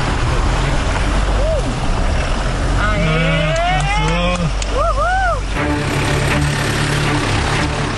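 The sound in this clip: A car engine roars as it accelerates up a rough slope over stones laid on the track. The sound is a loud, continuous rumbling noise, with voices calling out over it.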